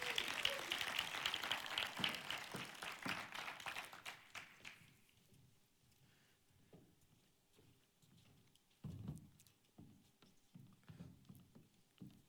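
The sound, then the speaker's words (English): An audience claps to welcome speakers to the stage, a dense patter of applause that fades out over about four seconds. Scattered faint taps and rustles follow. “Would you guys just welcome them up here today?”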